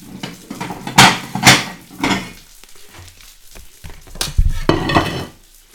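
Plates and dishes clink and clatter in a kitchen while bread fries in butter, a few sharp crockery knocks rising above a soft background, with quieter rattles between them.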